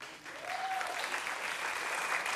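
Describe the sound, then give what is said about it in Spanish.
Church audience applauding, a steady wash of many hands clapping that holds at an even level for a couple of seconds, with no voices standing out. “Démele un aplauso.”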